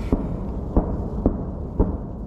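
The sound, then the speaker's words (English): Artillery fire in a fierce battle on the front line against Russian forces: four heavy, booming blasts at fairly regular intervals over a low, rumbling background, with no talk. “But there's still quite a fierce artillery battle going on.”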